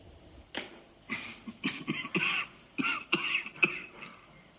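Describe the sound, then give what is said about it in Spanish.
A fit of harsh coughing with some throat clearing: many short bursts in an irregular rhythm, growing denser toward the end, with no talk. “Tose.”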